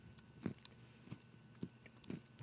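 Faint, crisp crunches of someone biting into and chewing a chocolate Cocoa Pebbles treat, a few soft bites spaced at fairly regular intervals over quiet background.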